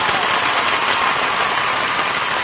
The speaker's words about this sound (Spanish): Ustedes no dejan de aplaudir y nosotros no dejamos de cantar hasta que les quiten lo que pagaron.